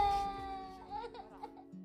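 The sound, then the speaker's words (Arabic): A young child crying: short, high, wavering wails and whimpers, fairly faint, rising and breaking off in brief bursts. “شو بك؟ ليه عم تبكي؟”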